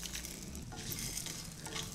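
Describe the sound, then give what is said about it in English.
Whole spices roast slowly in a pan: cumin, coriander and fennel seeds, cinnamon, star anise, dried red chilies, cardamom, cashew nuts and chana dal. A steady, soft crackling sizzle runs throughout, with light stirring sounds and no voices. “I'm going to slowly roast the spices.”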